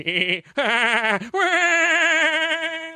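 A person imitates a sheep during comedic improv, giving three wavering, nasal bleats. The first two are short and the last is long and held, each loud and alone with no talk over them.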